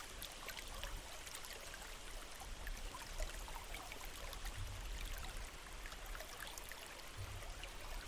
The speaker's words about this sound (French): Concentrez toute votre attention sur les sons de l'eau, pur, simple, envoûtant.